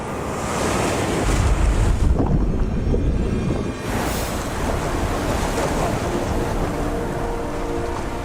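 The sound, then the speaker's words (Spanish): A huge ocean wave crashes against a boat: a loud, continuous roar of surf and rushing water with wind noise. The roar swells early on and then keeps churning steadily, with no voices. “Pero cuando sus pulmones están por estallar, una enorme ola rompe contra el barco.”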